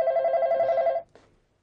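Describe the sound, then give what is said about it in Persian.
An electronic telephone ring goes unanswered: one steady, warbling ring lasting about a second, fairly loud and alone, then it stops abruptly. “بابا بچه چرا پس تلفن رو بر نمیدارین عزیزم؟”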